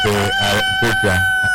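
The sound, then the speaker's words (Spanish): A rooster crowing in the morning: several loud, harsh, strongly harmonic calls in quick succession that fill the whole clip. “¿Qué es eso? Bueno, un gallo tan tempranito en la mañana.”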